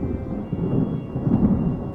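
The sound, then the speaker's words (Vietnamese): Dry thunder rumbles as dark clouds gather: a brief, deep, continuous roll that swells and fades slightly over two seconds, with no sharp crack. “Mây đen kéo đến mùa trời, sấm khan vang vọng.”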